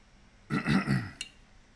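Throat clearing: one short, low, gravelly rasp made of a few rough pulses, ending with a brief click, with no talk around it.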